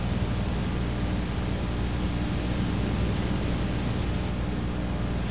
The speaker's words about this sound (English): And what you're hearing is not a bad recording, rather it is the confidentiality protection of the people involved. They don't want their voices on the tape where you hear that I'm recounting the story.